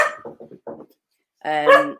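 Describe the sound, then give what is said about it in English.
A dog barks indoors: brief voice-like sounds come first, then after a pause a loud, higher, whining bark rings out alone. “Sorry about the dog.”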